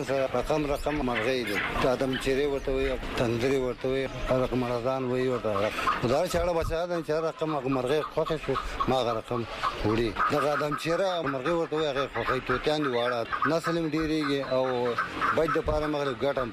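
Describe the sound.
Caged birds at a market bird shop cluck and squawk over a busy din, with a man speaking over the birds throughout.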